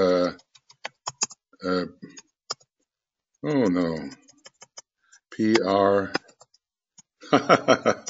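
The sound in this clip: Computer keyboard typing: short irregular bursts of key clicks fall between stretches of a person talking.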